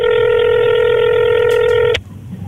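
A single telephone ring tone on a call line holds a loud, steady, buzzy pitch for about two seconds, then cuts off abruptly, leaving quiet line noise.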